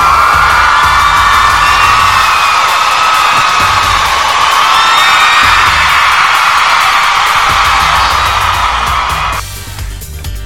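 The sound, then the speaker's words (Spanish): Crowd cheering and whooping in a sustained ovation, a loud, dense roar of many voices that holds steady before dropping away abruptly near the end. “eso es una ovación.”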